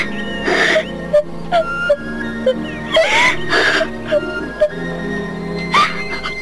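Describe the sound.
A girl crying alone, acted by a performer, in wavering, high-pitched sobs and whimpers. Several louder sobbing bursts are spaced across the passage, with catching breaths between them.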